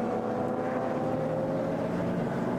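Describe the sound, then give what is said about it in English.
Racing car engines at the 2019 DMV Münsterlandpokal, a four-hour VLN endurance race in late October. A steady, loud, droning roar of engines continues without a break and without distinct individual passes. “Cars still sounding brilliant.”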